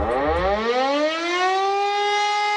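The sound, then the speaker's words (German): A civil defense warning siren sounds on Germany's national warning day. It gives a loud, continuous wail that climbs in pitch over its first second, then holds a steady, harmonic-rich tone, alone without voices. “Freuen Sie sich schon mal, heute ist bundesweiter Warntag. Um 11 Uhr werden auch in Berlin alle 420 Sirenen ausgelöst,”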